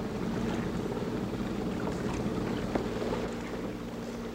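Ship engines running at sea on a moonless night, a steady low droning rumble with a constant hum and a windy hiss, unbroken and heard alone.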